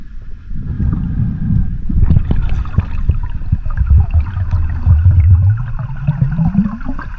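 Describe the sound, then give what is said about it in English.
Underwater sound of a diver descending, recorded on a dive: a continuous low rumble of turbulent water and bubbling with irregular bursts, and a low hum that rises in pitch toward the end. “And it's the sound of a diver going underwater.”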